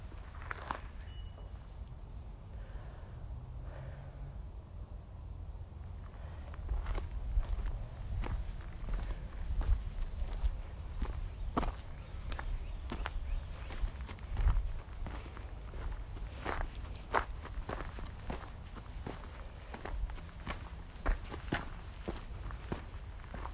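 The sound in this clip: Footsteps of someone out on a walk, a long run of many steady, evenly paced steps that carry on alone over a low background hiss, with no talk.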